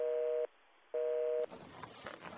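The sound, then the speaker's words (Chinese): A telephone busy tone sounds after a call is hung up, with two evenly spaced electronic beeps of equal length followed by faint line noise. “任由那边吼到一半变成了断线的盲音”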